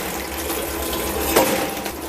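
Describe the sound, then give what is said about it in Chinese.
Water splashes as shellfish are rubbed clean by hand to scrub mud and sand off the shells, a steady watery wash with one brief, sharper clink or rattle partway through. “洗的时候用手搓一下，方便去除壳上的泥沙。”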